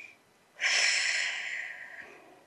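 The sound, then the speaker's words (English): A person takes one deep breath, a loud airy inhale that swells suddenly and then tapers slowly over more than a second, heard alone against near silence. “So big breath. Another big breath.”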